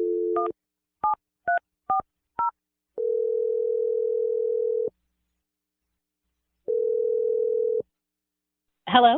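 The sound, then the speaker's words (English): Telephone dialing tones: an opening tone and four short dual-tone key beeps, then two long, steady tones separated by silence. A voice begins briefly at the very end. “I'm going to dial Abby's number right now.”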